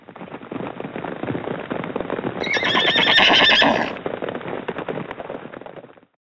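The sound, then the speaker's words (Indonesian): Horse hooves gallop in a rapid, steady drumming rhythm throughout, and a loud, high whinny rises over the hoofbeats partway through before the galloping continues and stops. “Itu adalah suara derap kaki kuda.”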